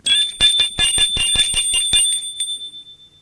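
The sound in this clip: A doorbell rings in many rapid, bright metallic strikes, the last ones fading into a short ringing decay.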